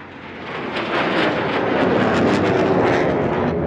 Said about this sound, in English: That's something you don't see every day, a Spitfire and a Typhoon. A few feet apart in flight, but 75 years apart historically.